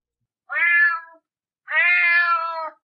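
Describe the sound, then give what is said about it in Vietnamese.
A large black cat meows twice, a short call and then a longer, drawn-out one, clear and fairly loud with silence around them. “Một con mèo đen to lớn đi ngang qua chỗ Thạnh.”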